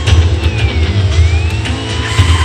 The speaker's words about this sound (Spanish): Varios coches de policía vienen por la calle.